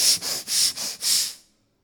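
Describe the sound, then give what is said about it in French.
A voice imitates a bull snorting, a dark bull with a ring in its nose that is pawing the ground: five harsh, breathy puffs in quick succession, the last one longest, then silence. “Un taureau qui a aperçu Mathias et qui commence à traîner des pieds et qui commence à souffler.”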